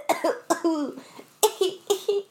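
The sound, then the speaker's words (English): Coughing from a person with a persistent cough that worsens at night: a string of harsh, partly voiced bursts in two clusters with a short pause between them. “The coughing has no ceased. The coughing but is But I'll be like, fine yeah. all day, and as soon as it's nighttime, I like can't talk like a normal person. Only can cough.”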